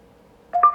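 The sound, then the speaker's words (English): Two wireless speakers in true wireless stereo mode give a short electronic pairing chime. The brief two-tone sequence comes alone after near silence. “And there it is. So that is the sound of two of the speakers connecting together.”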